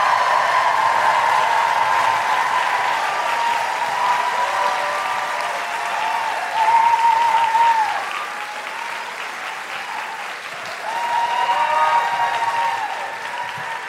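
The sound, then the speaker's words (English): Audience applause and cheering with whoops at a live comedy show as a guest is welcomed, a dense steady clapping roar that swells louder twice before easing. “If you listen to The Guilty Feminist, put your hands together and make incredible woo-hooing noises, break laws if necessary”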